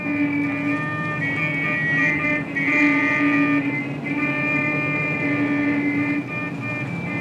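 Traffic fills a big city street with a dense, steady roar of engines and road noise, and sustained droning tones run through it at fairly high volume the whole time.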